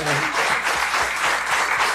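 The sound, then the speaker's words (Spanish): Audience applause for firefighters on Firefighters' Day: loud, dense clapping that keeps up throughout, with a voice heard briefly over it at the start. “Un aplauso también para ellos.”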